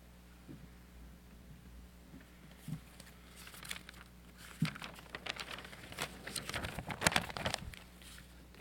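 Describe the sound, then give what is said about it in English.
Paper sheets of a homily being unfolded, with faint crinkling and rustling crackles in scattered bursts that grow busier and louder toward the end. “Make all this noise unfolding my homily for today.”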